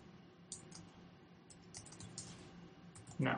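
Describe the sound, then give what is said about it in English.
Soft keystrokes on a computer keyboard as a password is typed at a login prompt: a few faint, scattered clicks, then a louder burst of clatter near the end. “And enter, and now you type the super strong password.”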